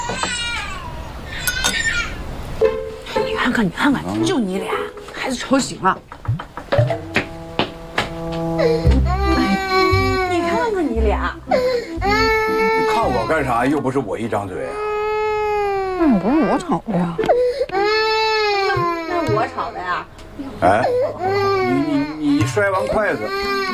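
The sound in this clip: A baby woken by adults squabbling at a meal wails in long, rising and falling cries, while adults keep talking over and between the sobs.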